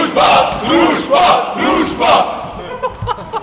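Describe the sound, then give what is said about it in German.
A men's volleyball team shouts its team call before starting play: a few loud, clipped bursts of voices in unison, followed by quieter scattered sounds as the call ends. “Man hört den Ruf des Männerteams, bevor sie mit dem Volleyballspiel beginnen.”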